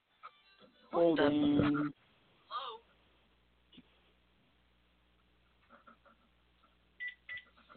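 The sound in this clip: A telephone rings with one loud, sustained tonal burst, followed by a short chirp and a few faint scattered beeps and clicks over a quiet background.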